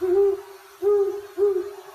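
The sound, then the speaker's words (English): Owl hooting: three low, tonal hoots, each a smooth slightly arched note lasting about half a second, evenly spaced with quiet gaps between, clear and alone. “That's the common one that's used, gugugwes. But then you have other owls like a barn owl or something like that.”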